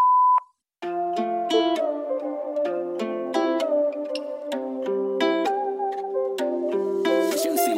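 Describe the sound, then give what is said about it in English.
A voicemail tone after a recorded message: one short, clean, steady beep at the start, followed after a brief silence by music with layered notes. “Please call back later or leave a message after the tone.”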